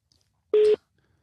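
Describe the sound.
A single short telephone tone sounds at a steady mid pitch, loud and clean for about a fifth of a second against silence, as a phone call is placed.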